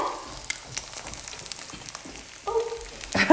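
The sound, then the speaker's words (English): Eggs frying in a pan as butter is spooned over them, a steady crackling sizzle with scattered sharper pops, growing a little louder toward the end. “So we like our eggs runny yolk, crispy bottom. Love a crispy bottom. So we're just going to leave that for a few minutes. Spoon some butter over it.”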